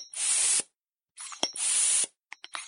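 Air hissing from a hand pump pressed to inflate a balloon: two long, loud bursts of rushing air separated by a pause, then a few short, sharp puffs.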